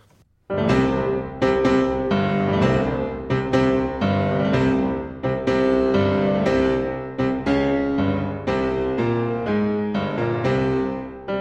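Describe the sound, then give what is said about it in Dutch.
Heavy, clumsy orchestral motif of the giants: loud, accented full-orchestra chords in a slow, plodding, stomping rhythm that repeats through the passage without pause. “Maar de reuzen hebben een heel log, ik zou bijna willen zeggen, een beetje dommig motief. Het klinkt zo.”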